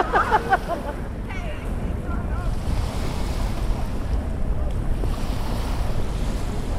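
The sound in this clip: Waves lap on a small beach of the River Thames in London, a steady rough wash of water mixed with gusty wind noise throughout, with faint voices near the start.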